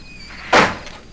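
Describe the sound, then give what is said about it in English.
An office door is opened with a single brief, muffled thunk that stands out from otherwise quiet surroundings. “He stares at the door to Andy's office, then walks over and opens it.”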